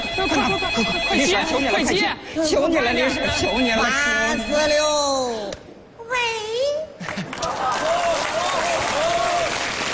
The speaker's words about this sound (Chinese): 老头电话，老头电话